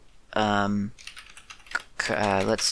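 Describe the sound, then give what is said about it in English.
Keystrokes on a computer keyboard, a brief run of quick clicky taps between two bursts of a person talking. “And then you type in some word.”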